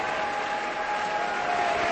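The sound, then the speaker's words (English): An audience gives a standing ovation after a violin concerto finale, with steady, dense applause that stays even and sustained throughout. “Now the audience is on its feet. Hadalek bows and shakes the conductor's hand.”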